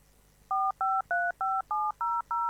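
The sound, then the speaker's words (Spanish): Telephone touch-tone dialing: seven evenly spaced beeps, each a steady two-note chord that changes from key to key, sound clearly over a faint low hum. “¿Estás llamando? Llama, dale, llama ahora.”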